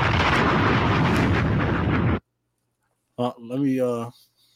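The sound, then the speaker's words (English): An explosion sound effect played as a drop: a dense, booming roar of blasts rumbles loudly for about two seconds, then cuts off abruptly, followed by a brief silence and a short burst of a man's voice. “I don't know if that was the right drop to play for Berlin. My fault. they didn't get bombed.”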